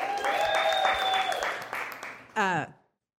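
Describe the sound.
Audience applause at a San Diego Startup Week 2023 event as a speaker is welcomed: dense, steady clapping for over two seconds, then a brief voice over the dying claps before it stops.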